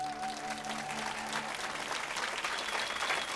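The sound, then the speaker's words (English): An audience gives a standing ovation after a singer's performance. Dense, sustained clapping stays steady and full for the whole stretch. “The audience went wild and gave her a standing ovation.”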